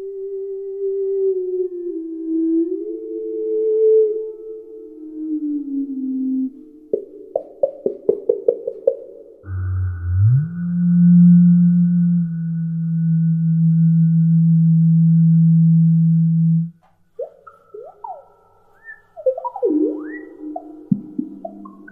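Ondes Martenot electronic instrument demonstration: smooth gliding sine-like tones, then a quick run of short repeated notes, a long steady low tone, and finally rapid swooping notes, with no talking.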